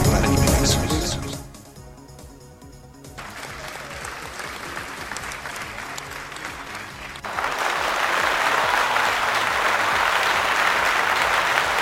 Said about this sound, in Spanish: Nos merecemos el aplauso, muchachos